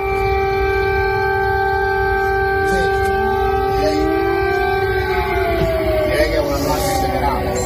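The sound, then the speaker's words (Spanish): Alarm sirens sound over Odessa, Ukraine, a port city on the Black Sea: steady, sustained wailing tones hold throughout, with a few sliding tones crossing them, loud and unbroken. “Este es el sonido de las sirenas de alarma de Odessa, la ciudad ucraniana que está al borde del Mar Negro”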